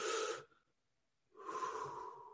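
Quiet, airy breathing as a deep calming breath is taken: two soft, drawn-out breath sounds separated by a short silence, the second longer than the first, with no talking.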